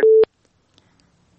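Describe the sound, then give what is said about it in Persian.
A telephone busy tone after a caller's line disconnects: one loud, steady beep that stops abruptly, followed by near silence. “تشکر از اینا، فکر میکنم تماسشان قطع شد. یک تماس دیگه میگیریم”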